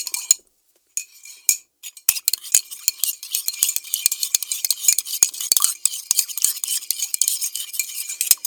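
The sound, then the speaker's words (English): A spoon stirs Tang drink powder, making many rapid clinks and scrapes against the container. A brief pause comes near the start, then busy, uneven clinking continues to the end. “Is everyone ready to mix the Tang? I'm putting the cap back on the bottle. All right, here we go. Let's mix up our Tang.”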